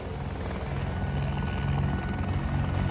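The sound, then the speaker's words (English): A helicopter approaching during an attack on militants besieging a hotel: a dense, continuous rotor and engine roar with a low throbbing pulse, loud and steady, swelling slightly as it goes on. “That screeching noise that you can hear, that's the sound of a chopper.”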